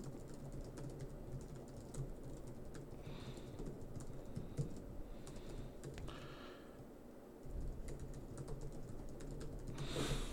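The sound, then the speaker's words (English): Rapid typing on a computer keyboard: many light keystrokes clatter in a steady, uneven stream throughout, with no talk. “as I'm again typing to Brandon”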